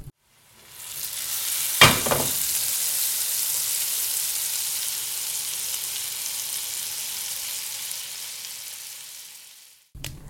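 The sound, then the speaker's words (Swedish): Ham sizzles on the glowing embers of a stove, a sharp crackle at the start giving way to a loud, steady hiss of frying fat that lasts for several seconds before it cuts off. “reste sig upp och gick till spisen och la skinkan på glöden”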